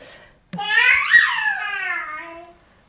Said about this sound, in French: Ça, c'est un bébé de 5 mois qui fait un peu tous ces trucs d'exploration. Il est tout seul.